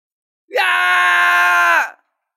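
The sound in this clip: A man's loud shout, an aged master crying out: one long sustained yell of about a second and a half, held at a steady pitch and heard alone.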